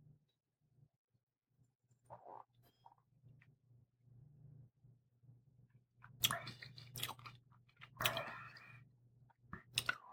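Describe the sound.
Soft wet mouth sounds of someone tasting red wine, faint and sparse at first, then a cluster of louder slurps, sucking and lip smacks toward the end, with no talking.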